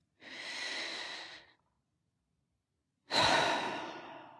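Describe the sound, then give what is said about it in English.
A person takes a deep breath: a long, soft, airy breath, a pause of silence, then a louder sighing breath that slowly fades. “Let's take a deep breath.”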